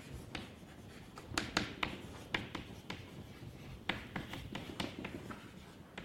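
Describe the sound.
Marker or chalk writing on a board during a mathematics lecture: many short scratchy strokes and taps in irregular bursts, fairly faint over a low background hum.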